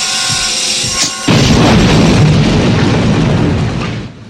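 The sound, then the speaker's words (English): A horror film's climactic indoor explosion, where the hero blows up himself and the villain: tonal sounds cut off abruptly into a loud, sustained rumbling roar that slowly fades. “The resolution, the hero blowing himself and the villain up at the end was fucking spectacular. And as far as inside explosions go, that's one of the best in horror. That one right there,”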